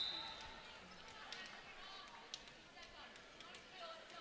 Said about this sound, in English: going through her dribbling routine and sends it over the net